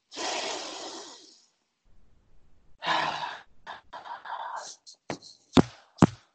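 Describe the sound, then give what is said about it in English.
A voice imitates a masked villain's mechanical breathing: a long, hissing breath, then a second shorter rasp, followed by a few scattered breathy noises and sharp taps. “Can I get one more Darth Vader breath real quick?”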